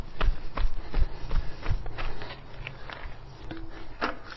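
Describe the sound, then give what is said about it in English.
Shuffling scrapes and soft thumps come from a person climbing over a fence at a shut gate on a private road, in an uneven rhythm. “Oh, I've actually got to climb a fence here. It's private road, and they shut the gate. I'm through now, though.”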